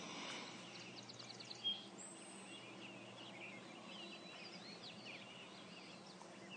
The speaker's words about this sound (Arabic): والصوت الثاني هو صوت عصافير، ويزين الشلال مع العصافير.